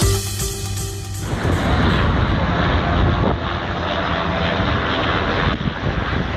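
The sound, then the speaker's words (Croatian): Helicopters droning over Belgrade's city centre during a police blockade for a parade, a loud, dense engine and rotor roar that starts abruptly and holds steady. “Proteklih nekoliko sati ovo je bio zvuk koji se razlegao centrom Beograda. Nadletali su ga helikopteri”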